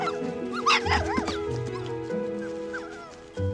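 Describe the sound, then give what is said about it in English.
Puppies bark and yip in a yard: a few high-pitched yelps and short barks, fairly faint, the liveliest cluster near the start, followed by scattered quieter yips. “The puppies frolic in the yard.”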